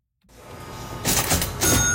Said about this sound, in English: A familiar ring is once again echoing through the lobby of a historic Winnipeg hotel. It belongs to a custom-made cash register, once used at the Northern Hotel, starting in 1907.